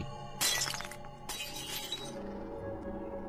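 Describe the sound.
A dog food bowl smashes and breaks in two sharp shattering crashes, the second trailing off into faint clinks of scattered fragments, with no talk over it.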